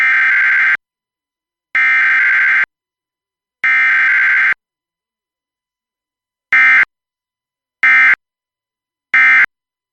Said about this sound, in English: What you are hearing is generally called audio frequency shift keying, or AFSK, and more specifically, this is a system called SAME, which stands for Specific Area Message Encoding.